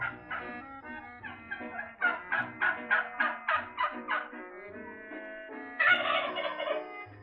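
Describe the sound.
A turkey gobbles, first with a few scattered calls and then a rapid rattling run of pulses, ending in a louder, fuller burst of gobbling.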